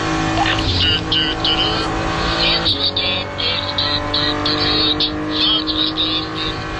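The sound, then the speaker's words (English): Race car engines roar as one car overtakes a BMW station wagon in a motor race, a loud, continuous buzzing drone of high revs with shifting harmonics throughout. “when Max passed Jens Klingman, who was in a sort of a unique BMW station wagon, he did this while acknowledging the inevitable.”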